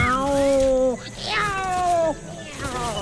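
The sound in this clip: A cat meows three times in a row. The calls are long, drawn out and fairly loud, with a wavering pitch and short gaps between them.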